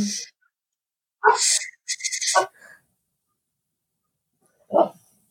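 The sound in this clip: A puppy barking: a few short, sharp bursts close together, then a pause of silence before one last lone bark.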